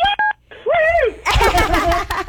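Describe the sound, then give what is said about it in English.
Two short electronic phone beeps, like keypad tones, sound at the start, followed by a person talking. “I don't know if your phone beeped because you cussed or because it was just the right thing to do.”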